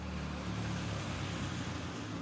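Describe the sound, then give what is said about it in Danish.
Road traffic at a bus stop, heard as a faint, continuous wash of rumble and hiss with no distinct events and no voices. “Nu står jeg ved et busstoppested ved ruten.”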